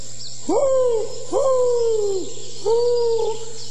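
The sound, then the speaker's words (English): Owl hooting: three drawn-out tonal hoots, each sliding slightly downward in pitch and separated by short pauses, over a low steady hum. “It's that owl again.”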